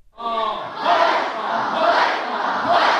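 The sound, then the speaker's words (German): A crew of schoolchildren costumed as pirates shouts a sailors' greeting together in a school gym, a loud, sustained burst of many young voices that swells and holds at full volume. “Wo sie heute am Morgen in der Turnhalle Danegg angekommen sind, haben sie zuerst 3-mal laut den Seemannsgruß gerufen.”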